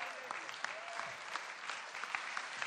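Church audience applause welcoming three panelists onto the stage: a dense, steady wash of many hands clapping that holds at an even level with small scattered peaks throughout.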